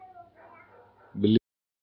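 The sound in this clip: A single short, loud dog bark bursts in right after a man speaks, then cuts off abruptly into silence.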